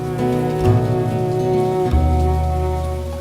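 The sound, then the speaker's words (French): Rain falls in a steady, dense hiss that runs through the whole stretch without a break, mixed with sustained low tonal hums underneath. “Il pleut.”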